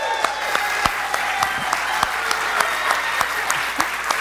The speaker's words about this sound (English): Let's give him a hand, ladies and gentlemen.